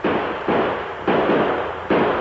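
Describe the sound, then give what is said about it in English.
Gunshots in a shootout beside a wagon with riders charging in, four loud sharp reports at uneven intervals, each trailing a long rough decaying tail, with no talk. “I keep shooting, but they don't stop.”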